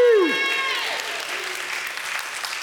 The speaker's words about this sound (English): So big hand for Rich. Yay!